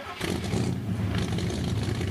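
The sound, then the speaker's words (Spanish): A car engine starts and roars, a loud, dense rumble that kicks in after a brief moment and then holds steady for about two seconds. “Así que enciende los motores.”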